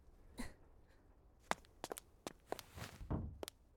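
Footsteps of someone running away, faint and quick, several light thuds and scuffs spaced irregularly over a quiet background.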